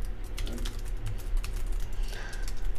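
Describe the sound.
Rapid typing on a computer keyboard: many quick, light key clicks in an uneven, continuous rhythm, with no voices over them.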